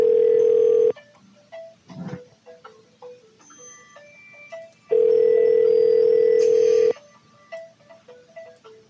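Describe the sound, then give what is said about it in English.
A phone ringing: two long, loud, steady tone bursts, one at the start and another a few seconds later, with quieter clicks and small noises in the gaps between them. “Why is it every time I go live, my phone goes off the hook?”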